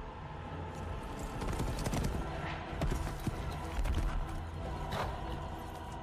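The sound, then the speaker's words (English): Horse hooves clatter as a horsewoman rides at speed: a dense run of quick, fairly loud beats under a busy wash of other sound. “Incredible horse riding, by the way. Amazing.”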